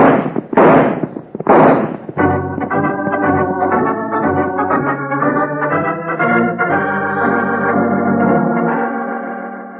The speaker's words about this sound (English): start shooting